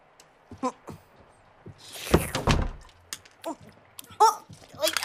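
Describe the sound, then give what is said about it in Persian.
A door is pushed shut with a dull thump, set among short bursts of voices talking. “درو ببن.”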